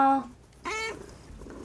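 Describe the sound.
A cat meowing, two short, faint tonal calls with a quiet pause between them, the second call bending in pitch, followed by low background noise.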